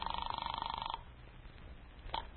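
A telephone ringback tone sounds on a call, heard over a narrow phone line: a buzzy, rapidly pulsing tone for about a second, then it stops, leaving faint line hiss and a brief click.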